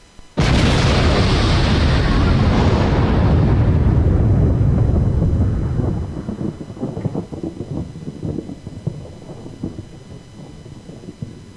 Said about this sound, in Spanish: Tres, dos, uno y esto es una bomba.